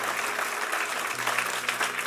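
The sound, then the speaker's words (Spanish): Applause from a church audience: dense, steady clapping from many hands that fills the whole short moment, with no pause or fade. “Dale un aplauso al Señor. Dale un buen aplauso al Señor”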